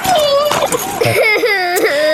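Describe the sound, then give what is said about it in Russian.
A young child cries, upset over a damaged bicycle, in a loud, continuous sobbing whimper whose pitch quivers and wavers up and down without pause. “А чего плачешь?”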